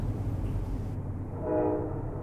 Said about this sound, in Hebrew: שוב תחנת רכבת, שוב עלייה לקרון, שוב בדרכים.